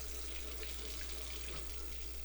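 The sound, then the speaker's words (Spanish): Water running from an open tap, as when washing dishes or brushing teeth, makes a soft, continuous hiss and splash with no breaks. It is faint and heard alone. “Si no cerras la llave mientras lavas 2 platos o te cepillas los dientes, estás desperdiciando el agua que se tomarían 44 personas en un solo día.”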